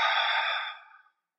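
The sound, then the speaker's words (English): One long breath exhaled through the mouth during a breathing exercise, a soft airy rush that starts strong and gradually tapers off into silence. “Inhale through the mouth. Expanding the stomach and the diaphragm, and exhale through the mouth.”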